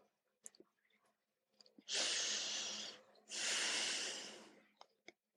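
Deep breathing during a guided meditation: two long, airy, hissing breaths follow each other closely, surrounded by faint small clicks and rustles in near silence.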